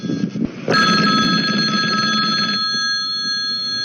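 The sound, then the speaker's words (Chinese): A telephone rings with a steady, loud electronic tone after a brief low rumble, a call placed to a squad leader in an armed police unit. The ringing holds on continuously and grows somewhat softer toward the end. “不信，我这就给他打电话。当当当当当， 来了”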